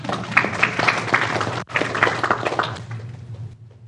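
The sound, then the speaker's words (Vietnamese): Audience clapping hands during a Buddhist teaching session, a dense, steady patter of many claps over a low hum, with a brief break midway and the clapping thinning out toward the end. “Hoan hô, vỗ tay.”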